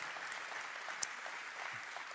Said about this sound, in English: Hope Center, you can applaud that